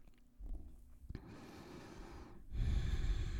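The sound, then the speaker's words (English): Slow, deep breaths in and out through the nose during a yoga relaxation exercise, heard as a few long, breathy rushes of air that get louder toward the end, with no talking. “Massive inhale through your nose. Massive exhales through your nose.”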